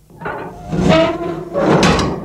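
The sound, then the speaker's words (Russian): A ramp door of a flying craft opens in the desert with two swelling mechanical whooshes, each carrying a faint tonal whine, separated by a brief dip. “Аппарат останавливается. Лысый берет шапку Гид Ивана, выключает свет в рубке рычагом на потолке. Дверь пандус открывается.”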